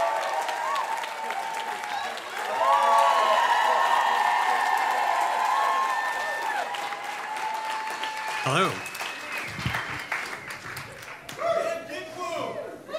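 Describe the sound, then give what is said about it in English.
An audience at a stand-up comedy show claps and cheers as a comedian is welcomed onto the stage. The applause is loud and sustained with whoops, then thins out as voices come in near the end. “You better make a fuck ton of noise. Please welcome to the stage, Dick Wound.”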